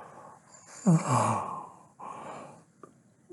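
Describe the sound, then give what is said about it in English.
A soft, drawn-out yawn with a voiced tone that slides downward, followed by quieter breathy exhalations, heard alone without talk. “While you listen to me yawning,”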